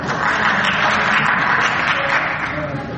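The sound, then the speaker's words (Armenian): Applause in parliament greeting a speech, heard as a dense, steady wash of clapping that holds at an even level for about three seconds. “Տեսնում եք, պարոն Սահակյան, ձեր ելույթին ծափարում է և մեծամասնությունը, և ընդդիմությունը։”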